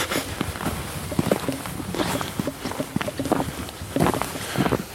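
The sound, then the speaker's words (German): Footsteps walk slowly along a dark field path toward the woods at night on the way to a hunting stand, a steady run of soft, crunching steps at a moderate level. “So, meine Damen und Herren, wir bewegen uns langsam Richtung Hochsitz. Wir laufen einen dunklen Feldweg Richtung Wald.”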